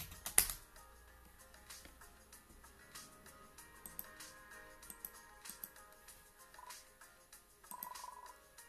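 Faint typing on a computer keyboard: many quick, uneven key clicks in loose bursts, with a soft steady tonal hum underneath.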